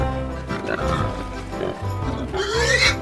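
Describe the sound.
Pigs on a farm grunt in deep, rough bursts, some of them snuffling. Near the end a higher squeal rises in pitch.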